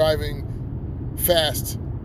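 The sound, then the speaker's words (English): A car drives home a little above the speed limit on adaptive cruise control, recorded inside on a handheld Android phone. Steady low road rumble continues throughout, with two brief bursts of talk over it. “this is me driving home. And if it sounds like shit, it's because I'm just recording it while holding on to my Android,”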